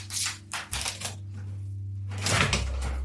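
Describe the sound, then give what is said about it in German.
Someone rummages deep in a drawer searching for a letter, giving a few rustling, clattering bursts over a low steady hum, with the busiest handling near the end. “Den habe ich, glaube ich, irgendwo tief in der Schublade da. Warte, ich muss mal suchen.”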